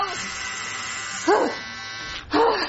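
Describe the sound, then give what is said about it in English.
Electric razor shaving hair off a head: a steady, loud buzzing hum runs throughout, broken by two short, sharp vocal cries laid over the drone. “Okay, look, I'm gonna shave it anyway.”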